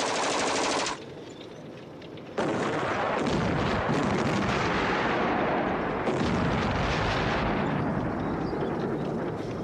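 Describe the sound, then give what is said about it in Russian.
Tank shells explode a few dozen metres from infantry trenches during a battle with machine-gun fire. A dense, loud rumbling barrage drops to a short lull, then resumes at full force and roars on continuously. “Выпущенные танками снаряды рвутся в нескольких десятках метров от окопов.”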